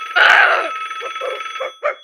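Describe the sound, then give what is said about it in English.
A telephone rings: a loud, sustained electronic trill, then several shorter, evenly spaced bursts of the same bright tone. “it's just a phone. Let me get it.”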